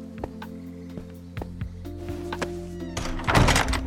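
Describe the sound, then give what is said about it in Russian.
Door in a Minecraft game world clanging open, heard as a few sharp thunks over a low steady hum, ending in a louder, noisy rush. “Дверь с лязгом гостеприимно распахнулась.”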